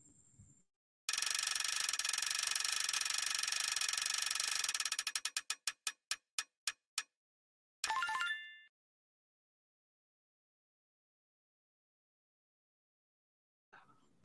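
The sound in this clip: A spinning prize wheel on a marketing show clatters with rapid, loud ratchet clicks that gradually slow into a few widely spaced ticks before stopping, followed by a brief bright tonal burst and then near silence.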